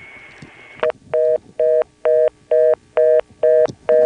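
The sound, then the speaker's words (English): Telephone exchange tones from an NX1E processor-controlled crossbar switch: a steady tone, then a short burst followed by seven evenly spaced, clipped tone pulses in an even rhythm. “Custom calling features on a switch which sounds a bit like an NX1? Well, I later confirmed that this switch is an NX1E, which is a processor-controlled crossbar switch.”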